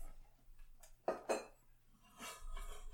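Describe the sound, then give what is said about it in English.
A small saucer-like piece from a brass urn tea set being set down: two quick, faint clinks in close succession, followed by a softer rustling handling sound. “this part, I guess, just kind of holds the teapot in place. It's like a little saucer kind of thing for the teapot, and it fits around that internal pipe. Let's set that down.”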